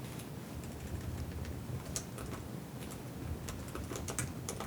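Typing on a computer keyboard during play of a text adventure game, a fast, irregular run of faint key clicks over a steady background hiss.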